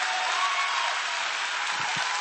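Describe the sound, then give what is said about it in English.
A church audience claps for its executive pastors, giving steady, dense applause throughout, with a couple of low thuds near the end. “Give them a big hand clap.”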